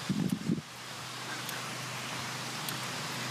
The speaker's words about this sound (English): Sound of the wind blowing through the trees.